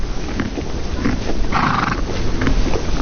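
Horses from a farm herd: one brief whinny rises in the middle, over steady, noisy rustling and low thumps.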